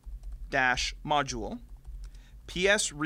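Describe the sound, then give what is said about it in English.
Typing on a computer keyboard while entering a PowerShell command, soft key clicks running under a person talking and filling the short pauses between phrases. “So to work around this, go ahead and type this before we actually join that PowerShell session.”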